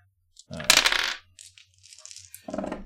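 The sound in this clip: Dice rolled for a tabletop role-playing game check clatter in a loud rattling burst, followed by scattered lighter clicks as they settle and a second brief rattle at the end.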